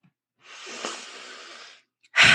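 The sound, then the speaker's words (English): A long, soft breath drawn in through the nose, followed after a short pause by a short, loud, forceful exhale pushed out through the mouth. “Breathing in through the nose, forced out through the mouth.”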